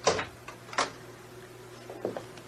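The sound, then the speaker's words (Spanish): A door being opened to enter, a radio drama sound effect: a few short clacks and scraping knocks, fairly faint, with quiet gaps between them. “La puerta no tiene llave. Vamos entrando.”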